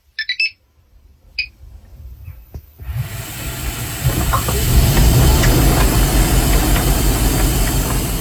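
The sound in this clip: A Bosch 9 kg washing machine starts with a few short electronic beeps, then a low hum and rushing water noise swell up and continue loudly and steadily.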